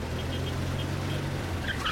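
A car braking to a stop while driving slowly close to a crowd of people: a steady low engine rumble runs throughout, with a brief higher-pitched squeal near the end.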